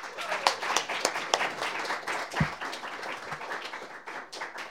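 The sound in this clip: An audience at an open mic claps to welcome a performer, a fairly faint patter of many quick, irregular hand claps that continues to the end.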